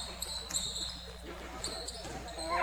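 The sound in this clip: A basketball is dribbled up the court during a women's game. A few rhythmic bounces thump over continuous arena crowd noise.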